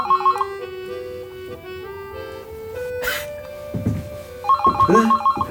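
A telephone rings in short, rapid warbling bursts, once at the start and again near the end, with a sustained musical tone and a few other sounds in between.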